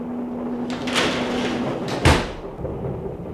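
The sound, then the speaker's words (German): A door is shut in a radio drama: brief rustling movement, then a single dull thud as it closes, over a low steady background hum. “Machen Sie Tür zu.”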